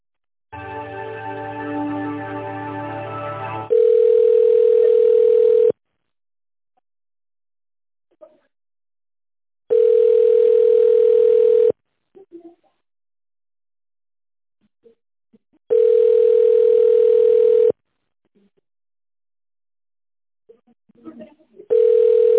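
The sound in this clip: A telephone ringback tone plays while a call is transferred to another department: three long, steady beeps of about two seconds each, separated by silent gaps.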